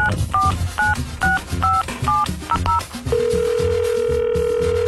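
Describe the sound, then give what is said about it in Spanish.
A telephone number is dialed on the air for a ticket giveaway call. A quick run of several short touch-tone beeps is followed by a steady, continuous telephone tone that lasts to the end. “A ver, vamos a marcarle.”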